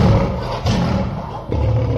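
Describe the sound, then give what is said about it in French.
A lion roars, a deep, rough growl that fills the whole clip and swells in a few rolling surges, loud and low throughout. “« En lion ?» L'ogre se transforma en lion.”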